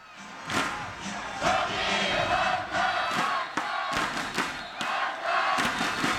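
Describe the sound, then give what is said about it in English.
Korean baseball fans chant a choreographed cheer in unison. The crowd roar is loud and steady, punctuated by sharp rhythmic bangs of inflatable thunder sticks struck together. “because Korean baseball is known for these well-choreographed cheers. It's almost like European soccer where they have, you know, songs and cheers and... We've got a bit of it here,”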